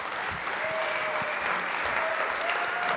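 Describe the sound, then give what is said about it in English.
An audience applauds to welcome a speaker, a steady, dense clapping that holds at an even level from start to end. “So let's put our hands together and welcome Wendy.”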